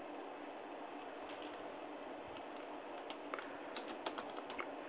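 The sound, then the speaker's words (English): Fingers type a quick reply on a computer keyboard. Many soft, faint clicks come in irregular bursts over a steady background hiss. “Let me type her back real quick.”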